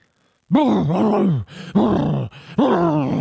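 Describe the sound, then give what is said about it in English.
A man's voice imitates a creature like a cross between a boar and a man: three long, rough, groaning exhales, loud and guttural, each rising and falling in pitch, with short pauses between them. “If you're all wondering, that's what the combination of a boar and a man sounds like.”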